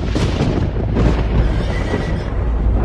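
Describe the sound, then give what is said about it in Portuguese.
Horses neighing amid a loud, unbroken roaring rumble, in a scene of horses and chariots of fire covering a hillside; the dense noise holds steady for the whole stretch with no pauses. “viu que ao redor de Eliseu o morro estava coberto de cavalos e carros de fogo.”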